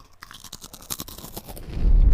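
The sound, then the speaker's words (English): Crunchy fries eaten for ASMR, giving a run of quick, crisp crackles and crunches that swell into a louder, muffled low rumble at the end. “Wait, I got to continue to do my ASMR fries.”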